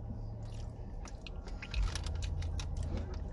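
Crunchy chewing of s'mores-flavored Oreo cookies, a run of brittle crackling bites and mouth noises at a low level, without talk.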